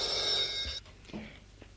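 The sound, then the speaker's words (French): A telephone bell rings in one short, bright metallic trill that cuts off abruptly, leaving a few faint soft knocks in the quiet afterward. “Le téléphone a sonné.”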